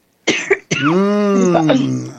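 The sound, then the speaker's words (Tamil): A slight dry cough: a couple of brief rough bursts, then a longer voiced, throaty sound that holds steady before fading. “லேசானது தான், லேசானது இருமல் வர பார்க்கறது, வறட்சி வறட்சி.”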